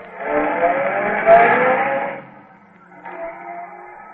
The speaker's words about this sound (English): But the boys will have a nice time driving fast anyway.